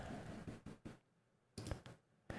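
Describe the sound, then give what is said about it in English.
A few sharp, quiet computer mouse clicks, made while working on a single-monitor screen, come in small irregular clusters over a low, steady background hiss. “I keep clicking on the minicam window because I'm so used to using the two monitors.”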